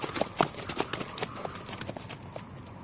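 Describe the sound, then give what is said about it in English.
Hooves of a stallion breaking into a full gallop: many rapid, crisp hoof strikes in a driving rhythm, loudest early on and gradually thinning toward the end. “Ryan gave a half-smile to Christy as he kicked the rump of the stallion with his boot heels, and the animal responded by breaking into a full gallop.”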